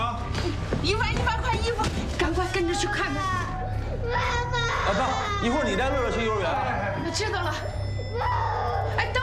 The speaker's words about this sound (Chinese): 你别哭。